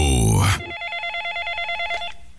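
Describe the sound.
Telephone ringing for an incoming call: a brief voice at the start gives way to an electronic ringer warbling in a fast, even trill of short pulses for about a second and a half.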